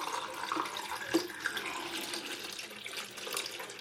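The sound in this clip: Tap water runs steadily and faintly into a sink during the second wash of developed photographic film, a continuous soft hiss with no talk.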